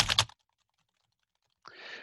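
Clicking from a button being pressed on a computer: a short, dense burst of clicks, a stretch of silence, then a second, slightly longer rustling burst of clicks.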